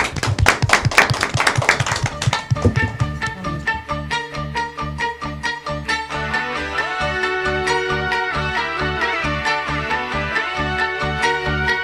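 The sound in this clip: Clapping from students for a fifth-grade school class after their interviews, a couple of seconds of dense, lively claps that give way to music with steady tones and a rhythmic beat.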